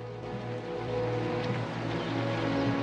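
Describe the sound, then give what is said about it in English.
A military police vehicle's engine drones low and steady as it backs up and turns in the road. The rumble is faint and even, with no distinct separate events. “The military police vehicle has come to a halt. It backs up and makes a turn in the road.”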